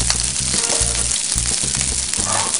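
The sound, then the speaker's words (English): Rice frying in oil in a hot pan gives a steady, loud, crackling sizzle that runs unbroken throughout, with soft low thumps recurring beneath the hiss. “Now, if you see if your pan's getting hot, like your, like your rice is absorbing a little bit of your oil, that's okay.”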